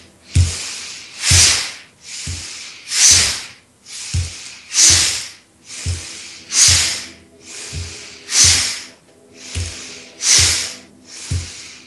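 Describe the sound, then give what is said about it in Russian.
Steady in-and-out breathing during a guided relaxation exercise, with many soft, airy breaths in an even rhythm. Fuller, louder exhales alternate with quieter inhales, and no voices are heard. “Делаем обычный вдох, выдох и дышим. Вдох, выдох.”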